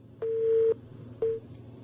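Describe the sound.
Telephone line tone as a caller is connected: a long, steady mid-pitched beep followed by a much shorter one, sounding alone over low background hiss.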